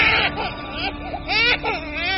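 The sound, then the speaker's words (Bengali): A child who has just woken cries out loudly in fear, a sustained, wavering wail whose pitch repeatedly rises and falls. “ছেলেটা জেগে উঠে ভয়ে চিৎকার করে কাঁদতে লাগল।”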